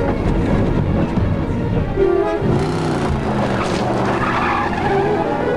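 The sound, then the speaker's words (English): A Jeep Cherokee SUV floors it out of a roadside ditch onto a dusty dirt road while a pickup truck races after it. Loud, continuous engine roar and tire noise run throughout, with no talk. “Jeff quickly shifts into drive and floors it. The mustache cowboy hurries back into his pickup and races after him.”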